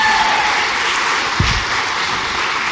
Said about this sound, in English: let's give John a round of applause.